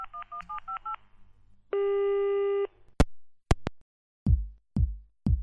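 Touch-tone dialing of a telephone call: a rapid run of short keypad beeps, then one long steady tone, a few sharp clicks and three short ringing tones that fade quickly. No voices.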